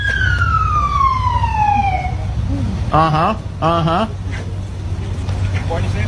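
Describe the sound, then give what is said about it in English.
A police car siren sounds over a steady low engine rumble. A long falling wail comes first, then two short, wavering whoop-like yelps. “this is the sound of an arrest. Whoop, whoop. That's the sound of the police.”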